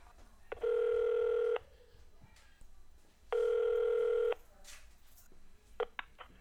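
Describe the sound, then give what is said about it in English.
Ringback tone on a telephone line while a call is being transferred: two steady electronic tone bursts of about a second each, separated by a pause, followed by a few faint clicks. “Transferring call. Please hold.”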